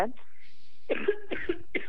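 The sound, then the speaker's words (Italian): A single short, rough cough from someone suffering badly from a cough opens the moment, and talking follows straight after. “Sto andando molto male con la tosse.”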